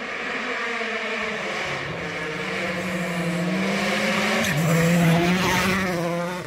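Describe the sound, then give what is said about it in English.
Engine of a Hyundai rally car driving a gravel stage in Finland: a loud, sustained engine tone that climbs in pitch, dips briefly at a gear change, then climbs again with a gritty roar. “Oittanik, back in his Hyundai for the first time since spinning the gravel at Rally Mexico”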